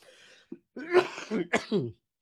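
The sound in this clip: Coughing from a person: a few rough, throaty bursts, with a short one first followed by several louder, voiced coughs separated by brief pauses.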